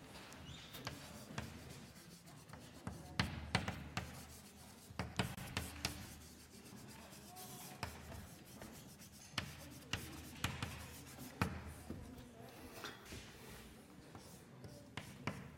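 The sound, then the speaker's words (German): Handwriting: a pen scratches quietly across a surface while coordinate axes and a formula are written out during a maths explanation, with many short, irregular strokes and small taps and no talking. “So, ich schreibe das mal so hin.”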